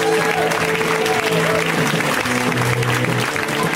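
An audience at a comedy set applauds to welcome a comedian to the stage. The clapping is loud and continuous throughout, with no break.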